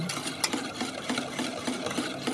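Collagen powder being stirred into water: many quick, rhythmic swishing and scraping strokes, steady and even, with no voices.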